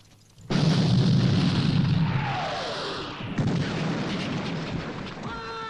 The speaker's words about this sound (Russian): Французские пушки стреляют залпом.